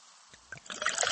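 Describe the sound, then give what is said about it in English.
Pepsi Zero Sugar cola is poured, starting quietly and building into a soft, fizzy gurgle of bubbling liquid with light splashes. “Listen to that endless pour.”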